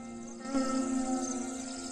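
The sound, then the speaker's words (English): Flying insects, including white-winged termites, buzz around feeding elephants with the sun low on the horizon: a steady, dense droning hum that swells slightly after half a second and holds, with no voices. “with the sun low on the horizon and the air alive with insects.”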